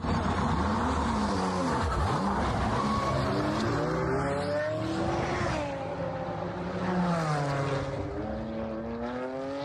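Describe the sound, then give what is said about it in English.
A tech-adapted race car driving on a race track, its engine note sweeping up and down through the revs, with a quick pass-by dip early on, then repeated rising whines as it accelerates, loud and continuous. “That's the sound of a car raced by Team Brit.”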